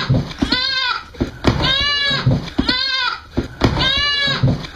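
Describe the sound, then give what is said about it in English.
A goat bleats four times in a regular pattern, each call a loud, nasal, quavering cry separated by short pauses. “It kind of feels like you're rage baiting me into trying to play goat sounds.”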